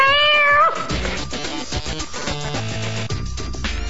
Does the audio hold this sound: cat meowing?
yes